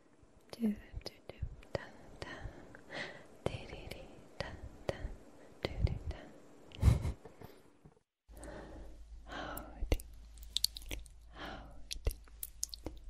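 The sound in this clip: Soft ASMR whispering from a YouTube video, breathy and close, dotted with little mouth clicks and crackly taps, pausing briefly in the middle before the hushed whispers resume.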